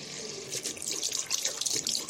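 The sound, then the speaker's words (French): Shower water running while someone washes, a steady hissing spray with splashy, fluttering texture, moderately loud and continuous, with no voices. “Direction la douche. Je me lave.”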